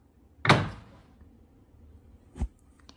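A door being shut lands as one sharp, loud thud followed by a decaying rattle. A second, softer knock comes about two seconds later, with near silence between.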